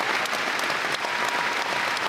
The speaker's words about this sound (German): Und vor ihm ein Saal, der steht und jubelt.